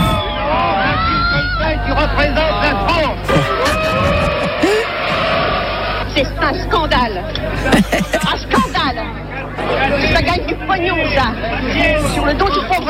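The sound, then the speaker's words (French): Agitated film audience crowd reacting nervously after a 1973 screening: a dense, continuous hubbub of many raised voices with occasional louder shouts, loud throughout. “Le film fait grand bruit. Réaction nerveuse des spectateurs.”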